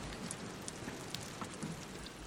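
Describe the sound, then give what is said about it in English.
Steady rain falling, a soft, continuous patter with occasional sharper drop hits. It stays fairly faint and even throughout, with no voices. “She cycled off into the rain.”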